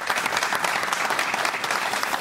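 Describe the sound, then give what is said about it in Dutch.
A TV studio audience applauds a new guest arriving at the table, a loud, continuous burst of many hands clapping evenly throughout. “En ik ga nog een applaus vragen, want onze nieuwe gast zit aan tafel.”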